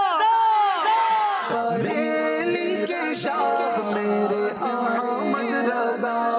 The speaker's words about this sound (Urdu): نعرہ لگائیے جوش کے ساتھ, فیضان رضا.